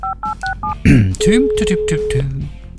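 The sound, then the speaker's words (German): A phone number is dialed as four quick touch-tone beeps in a steady rhythm. Louder vocal sounds and a held tone follow. “Und deswegen werde ich da mal nachhaken und bei ihm anrufen.”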